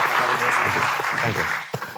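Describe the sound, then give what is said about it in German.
Hearty audience applause, a continuous wash of clapping with talk running over it and a few sharper claps near the end. “Erstmal einen heftigen Applaus.”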